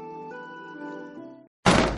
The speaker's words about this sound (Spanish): Que no vuelvan a darte un portazo.